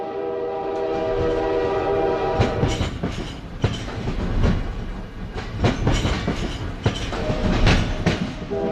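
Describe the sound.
A train passes with a steady, loud rumble and irregular wheel clatter, and a sustained horn-like tone sounds near the start.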